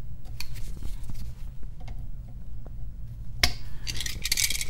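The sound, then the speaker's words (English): Cutters snip off excess electrical wire during a residential occupancy sensor installation, giving one crisp, sharp click that stands out against faint handling noise, followed by light rattling. “These are not very deep, so there's no point in having that much wire exposed. So I'm going to trim a little bit of that off.”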